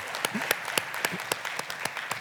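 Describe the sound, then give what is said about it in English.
A church audience claps for Jesus during a service, hands striking together in a steady, even beat of sharp, bright claps that continue throughout. “This is, do you want to clap for that, man? Clap for Jesus.”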